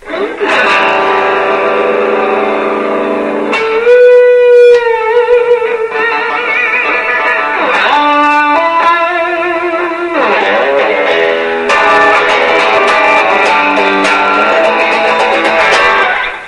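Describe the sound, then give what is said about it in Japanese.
Electric guitar played through a compression sustainer and a modulation delay, loud sustained notes and chords with long, swirling tails, with several phrases separated by brief changes in tone and no voices. “コンプレッションサスティナーに加えて、モジュレーションディレイでちょっと、深みを加えるとともにですね、今日はちょっとロックしてみようということで、”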